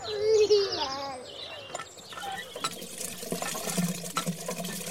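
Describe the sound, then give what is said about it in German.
Water splashes as someone washes another person's face, giving a soft, irregular run of wet splashes and trickles at low volume. “Komm, ich wasche dir das Gesicht.”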